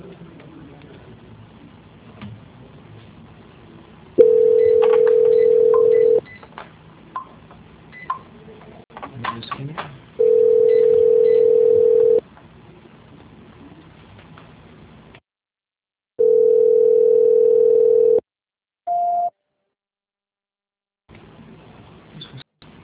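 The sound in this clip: Telephone line tones sound during a call transfer: three long, steady mid-pitched tones separated by gaps of line noise and dropouts, then a short, slightly higher beep before the line goes quiet.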